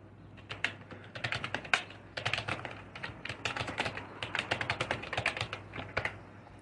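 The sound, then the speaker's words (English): Fast typing on a computer keyboard: many quick, crisp key clicks in rapid bursts with brief pauses between them, quiet and alone. “If you're asking me how I type that fast, I have no idea.”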